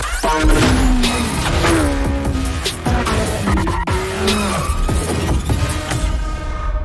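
Car engine sounds from an arcade racing video game, a whining engine tone that shifts in pitch, heard within dense, continuous game audio.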